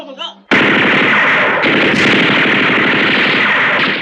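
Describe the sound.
Gunfire from the guns of a group of armed agents: a brief shouting voice, then a sudden loud, dense roar of rapid shots that continues without a break to the end.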